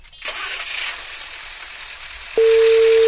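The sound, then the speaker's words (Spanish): Steady telephone line tone heard while a call is placed to a municipal office. A stretch of hissing noise comes first, then the loud, even, mid-pitched tone starts and holds unbroken to the end. “Llamemos por el tema de la basura a alguna municipalidad para joder nomás.”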